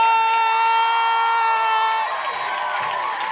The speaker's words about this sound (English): please give it up for Michelle Buteau. What's up, New York City? Make some motherfucking